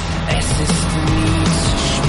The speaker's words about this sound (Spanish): un coche circula por una carretera.